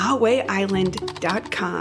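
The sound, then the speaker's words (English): Clicking keystrokes on a computer keyboard as someone types at a home-office desk, heard faintly under a voice speaking throughout. “Marie sat down at the desk, turned on the computer, and typed”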